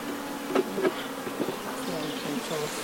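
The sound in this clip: Honey bees buzz steadily just before being moved onto a hive, a dense continuous drone whose pitch wavers slightly, with a few brief louder swells.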